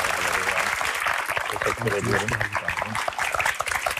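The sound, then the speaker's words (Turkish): An audience applauds to welcome a guest onto a stage, a thick, steady wash of clapping that runs throughout, with voices and a low tonal sound mixing in beneath it. “Sevgili Sağlıklı Hoca'yı hemen bir sahneye alalım. Alkışlarınızla.”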